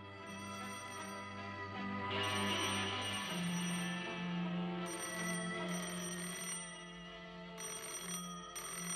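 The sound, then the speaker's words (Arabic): A telephone rings in repeated jangling bursts over a low, sustained tone. The ringing returns several times with short gaps between bursts. “حلمي بيه رد على التليفون وخلي اعصابك هاديه.”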